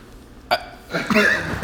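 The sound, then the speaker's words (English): Hiccups from a person: a short, sharp vocal jolt stands out early, followed by a few more breathy catches and throat sounds, moderately loud against a quiet background. “Sorry, I have the hiccups.”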